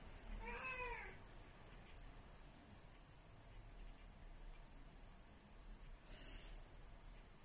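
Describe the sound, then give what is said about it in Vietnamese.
A cat meowing: one clear, wavering meow at the start, then quiet, then a second, fainter meow near the end, all at a low overall level. “Nó cứ meo meo từ lúc 7 giờ sáng cho đến tận nửa đêm. Cứ meo meo như vậy thôi. Đấy, các bạn có thể nghe thấy như thế đấy.”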